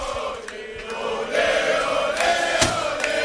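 A live radio studio audience makes crowd noise, a dense, continuous wash of cheering and chatter that swells louder partway through and stays high.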